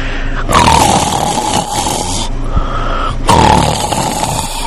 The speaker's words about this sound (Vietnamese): Khấu Trọng đổ vật vào lòng nàng, còn phát ra tiếng ngáy khò khò